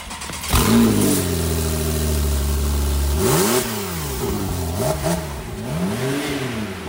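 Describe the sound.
A Toyota Fortuner engine starts indoors and climbs into a long sustained rev, then drops back and is blipped several more times, each sharp rise and fall in pitch loud over a steady idle, with no talk.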